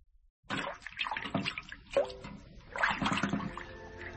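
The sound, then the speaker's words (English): Water splashes and trickles as someone washes. Irregular sloshes and small drips rise and fall, with brief louder splashes between quieter stretches of running water. “May I have a wash, Wilfred? Yes, of course.”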